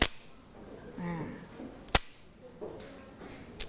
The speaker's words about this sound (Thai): เห็นไหมคะอันนี้ก็คือกลับพวง